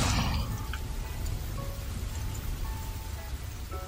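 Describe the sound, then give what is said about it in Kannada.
Heavy rain pours down in a dense, unbroken hiss with a low rumble beneath, steady and loud from start to finish. “ಈ ಎರಡೂ ಮೋಡಗಳ ಜಗಳದಿಂದ ಧೋ ಧೋ ಅಂತ ಭೂಮಿಗೆ ಮಳೆ ಸುರಿಯತೊಡಗಿತು.”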